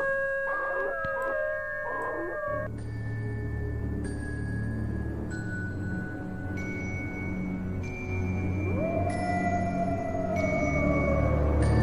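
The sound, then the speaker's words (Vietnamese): A wolf-like howl rises in pitch and then slowly falls, sounding over a bed of steady, sustained tones. “Thiên Phong ngửa mặt lên trời, chu lên một tiếng như loài chó sói vậy”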